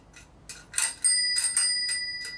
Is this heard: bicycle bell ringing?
yes